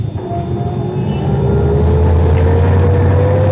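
A Rolls-Royce car pulls away in traffic, its engine a loud, steady drone with a tone that rises slowly as it gets moving.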